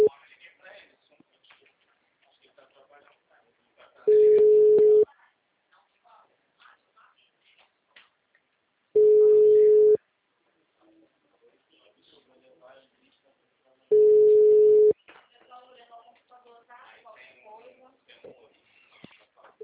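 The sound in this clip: Ringback tone of an outgoing phone call: three steady, mid-pitched beeps about a second long, evenly spaced by several seconds of near silence with faint rustling in between.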